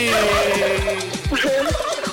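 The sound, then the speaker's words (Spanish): A turkey gobbles in rapid warbling bursts, repeated several times over a couple of seconds and clearly loud, with no talk over it. “No me pongas ese pavo. Ya viene diciembre.”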